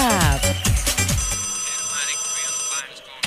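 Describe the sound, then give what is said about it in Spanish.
A WhatsApp call ringtone sounds on a phone: loud, bright bursts of repeated melodic tones for the first second, then steadier sustained tones that hold until near the end. “Ahí estaba el WhatsApp.”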